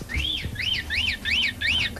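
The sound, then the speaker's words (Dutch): A parrot call plays from a children's sound book: five shrill, arching whistles in a quick, even rhythm, each rising and then falling, over low background noise. “Dat doet de papegaai.”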